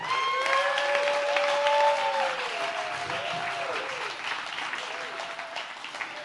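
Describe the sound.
A church audience applauds to welcome back their returning church administrator, with steady, dense clapping that runs throughout and eases slightly in the second half.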